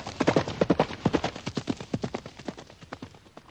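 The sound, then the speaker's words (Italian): Hoofbeats of a horse galloping away into the woods: a fast, uneven run of many sharp thuds that grows slightly softer toward the end. “Poi con Emma galoppò via nei boschi.”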